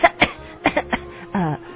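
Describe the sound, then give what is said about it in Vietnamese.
A woman fakes heavy coughing as if gravely ill: five short, rough cough bursts in two clusters, ending with a brief voiced throaty sound. “rồi giả bộ ho sù sụ như người bị đau nặng”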